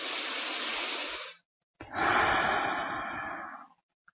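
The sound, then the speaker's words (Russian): A deep breath in followed by a long exhale during a grounding meditation. Both are soft, airy breaths of similar length, separated by a short pause, with no talking. “А сейчас сделайте глубокий вдох и выдохните в землю для заземления.”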